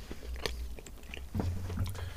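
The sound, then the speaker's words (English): Biting into a chocolate bar with a smooth caramel centre: a soft crunch, then moist chewing sounds at moderate volume. “Smooth caramel center. Have a bite down on that.”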